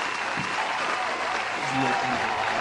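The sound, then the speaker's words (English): Audience applause, a steady, fairly loud wash of clapping lasting under three seconds, with a voice briefly heard over it in the second half. “Can you give us an applause, please?”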